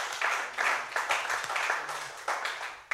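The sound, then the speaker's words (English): Applause from a church audience welcoming a pastor: a steady wash of many hands clapping, with a few louder surges standing out, and no clear talk over it. “Pastor Tommy, would you put your hands together and welcome him to High Point today?”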